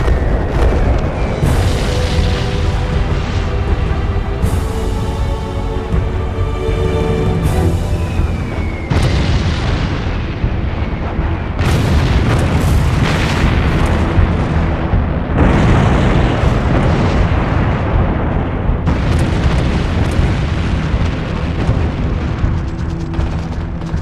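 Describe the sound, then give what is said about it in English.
Heavy bombing by Allied bombers on a monastery in World War II: loud, continuous rumbling explosions with many overlapping booms and blasts, no pause between them. “More than 200 Allied bombers will drop over 500 tons of bombs on the monastery. In World War II, nothing is sacred. It turns everything into an inferno.”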